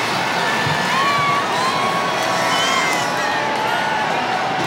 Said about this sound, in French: Le pape Léon XIV acclamé sur les Champs-Élysées.